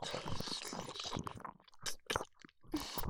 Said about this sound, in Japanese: いっぱいキスしよう。私の口、君の唾液でいっぱい。